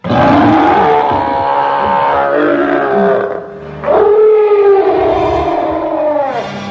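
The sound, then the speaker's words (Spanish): A furious gorilla roars in two long, loud, harmonic bellows, with a brief dip in loudness between them and a wavering, howl-like pitch throughout. “Además, detrás de la puerta cerrada había un gorila furioso.”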